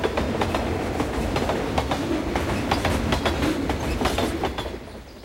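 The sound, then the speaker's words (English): A train crosses a bridge over a wide river at dawn, its wheels tapping a steady clickety-clack rhythm over a continuous low rumble that eases slightly at the very end. “As dawn breaks, a bridge carries the train over a wide river.”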